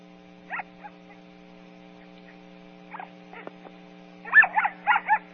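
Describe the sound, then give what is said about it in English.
A dog barking with a strongly modulated, pitch-varying voice: a few soft, short barks and yips early on, then a louder cluster near the end, all over a steady low electrical hum. “That one's softer. Could you hear it? Yeah, yeah, but a great deal more modulation. I mean, that dog could host a radio show, and no problem.”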